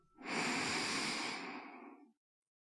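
A single deep breath in is taken at the close of a guided relaxation session with hands held in prayer. The airy inhalation swells quickly, holds for about two seconds, then tapers off into silence.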